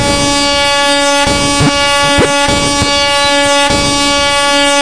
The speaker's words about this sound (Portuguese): Pera que eu trouxe a buzinada. A buzinada.